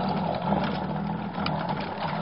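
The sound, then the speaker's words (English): An electric drink mixer runs in a bar, giving a steady, loud motor whir with a buzzy edge that holds level for the full length without a break. “Gotta mix it. Oh, that's a horrible machine to have in a bar. Some poor guy's liable to end up with shell shock.”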